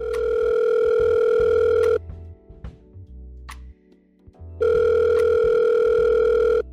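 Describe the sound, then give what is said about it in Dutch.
Telephone ringback tone on an outgoing call: two long, loud, steady tones separated by a quiet pause containing faint clicks and a short low tone. “wij gaan even bellen met Lieve van Kaas de Podcast”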